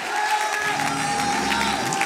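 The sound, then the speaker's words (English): An audience clapping their hands during a lively church service, a steady dense patter of claps under crowd noise and held musical tones. “Oh, clap your hands, oh ye people. Shout.”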